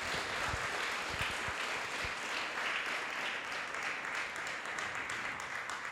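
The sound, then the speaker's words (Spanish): An audience applauds during a church service, a dense, steady wash of many hands clapping that holds at an even, fairly soft level for the whole stretch. “Denle un fuerte aplauso al Señor,”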